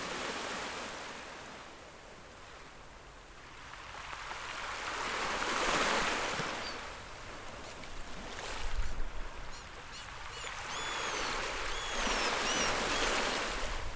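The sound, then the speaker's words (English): Wind and flowing rivers make a broad, continuous rushing roar that swells and fades in slow surges, with a heavier rumbling gust near the middle and no speech. “You can hear the sound of the wind, the rivers, the breathing of the plants.”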